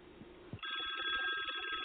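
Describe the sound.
A telephone bell rings for an incoming call, a loud, continuous rapid trill that starts abruptly about a third of the way in and carries on steadily to the end.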